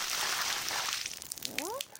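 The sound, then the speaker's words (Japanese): Hot water pours over foam-covered hair during a rinse, a soft rushing splash that runs steadily for over a second before tapering off into quiet. “お湯で流しただけじゃ泡が残っちゃうな”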